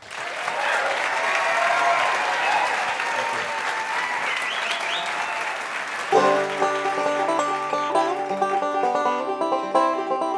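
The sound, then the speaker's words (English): An audience applauds to welcome a musician to the stage, dense steady clapping that carries on for several seconds before plucked acoustic string music begins beneath the fading applause. “Please help me welcome to the stage our good friend Noam Bekelny.”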